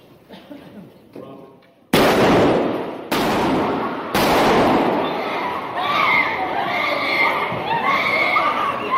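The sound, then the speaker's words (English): Three loud gunshots ring out in a church shootout, sharp blasts about a second apart, followed by shouting and commotion; faint voices are heard before the first shot. “Here's the video of the shootout, which you'll see at the top of the screen.”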